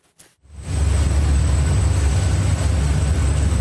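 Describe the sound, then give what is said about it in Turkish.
Roar of a Blue Origin rocket engine during a test that ended in a violent explosion: after a moment of near quiet, a loud, dense rumbling blast starts abruptly and holds steady, with a thin high whine running through it. “Milyarder iş insanı Jeff Bezos'a ait uzay taşımacılığı şirketi Blue Origin'de motor testi sırasında şiddetli patlama kameralara yansıdı.”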